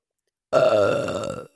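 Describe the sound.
A woman's long, loud burp: one drawn-out belch lasting about a second, heard alone with no talk.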